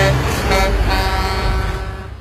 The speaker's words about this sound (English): This is the sound of a truck on a country road. This is the sound of a road train on a country road.